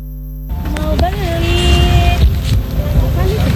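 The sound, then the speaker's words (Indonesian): Roar of traffic on a busy street corner in Makassar: a loud, constant low rumble of passing vehicles with a few tonal engine or horn notes, running steadily beneath a person talking. “Di sudut jalan yang hiruk pikuk oleh deru kendaraan”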